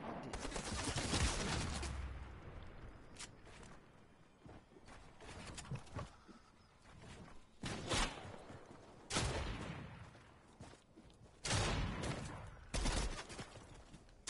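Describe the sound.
Video game gunfire crackles in many sharp bursts and volleys, some clustered and some spaced apart, over a low, steady rumble. The whole exchange stays fairly quiet and has no voices.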